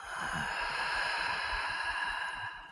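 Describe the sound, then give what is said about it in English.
A long, drawn-out breath, soft and airy, running as one steady hiss for the whole stretch with no talk over it. “But can you hear how my inhale was very long?”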